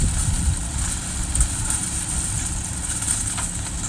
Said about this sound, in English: here's the sound of sweet corn getting harvested last week at Casey Cox's farm in southwest Georgia.